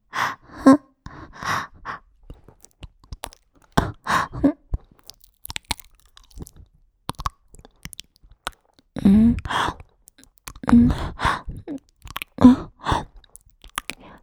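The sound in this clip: Chewing a bite of food: wet, irregular mouth sounds in short bursts, with breathy gasps and breaths between them.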